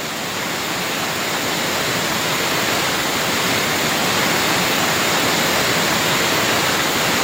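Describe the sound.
Water of the Salto del Nervión waterfall pours in a constant, dense rushing roar that stays loud and unchanging throughout, with no voices or other sounds.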